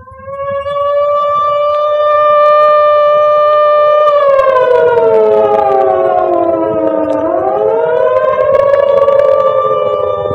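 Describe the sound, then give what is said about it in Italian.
Air raid sirens being tested sound a loud, sustained wail rich in harmonics. The pitch holds steady, dips gradually, sinks lower, then swings back up, with no voices. “Alle 10 si provano le sirene. Disturba se le risentiamo?”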